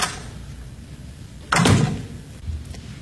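A door swings shut as someone leaves by the back door: one solid thud with a brief rattle, followed by a quieter knock over a low background hum.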